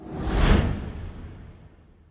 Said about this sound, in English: That music means it's time for the biggest football topic of the day in the debrief.